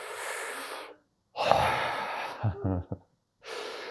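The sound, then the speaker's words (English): Deep breaths taken slowly, a few airy inhales and exhales separated by brief silences, with a soft breathy rasp near the middle and no talk. “Okay, take a breath with me.”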